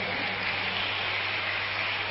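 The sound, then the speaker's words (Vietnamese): Children in an audience applauding themselves during a lecture, an even, hiss-like patter of clapping with no distinct single claps, moderately loud and steady throughout. “Nếu các cháu có thể làm được việc đó thì hãy dành tràng pháo tay để hoan hô chính mình.”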